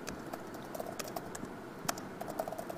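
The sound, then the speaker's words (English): Typing a command on a computer keyboard gives light, uneven keystrokes scattered across the moment, with one sharper click standing out, all fairly soft. “And what I'm going to do is type in set-msil domain authentication.”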